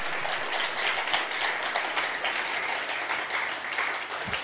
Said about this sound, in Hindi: तो किस किस को लग रहा है कि हमने बहुत अच्छा टाइम स्पेंड किया है, तो अपने लिए ताली बजाइए।